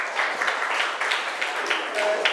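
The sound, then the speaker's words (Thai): Classroom applause for a classmate who answered a question about a hammer: children clap in a steady, busy patter with small bursts, at moderate loudness throughout. “งัดตะปูขึ้นเก่งมากปรบมือให้เพื่อนค่ะ”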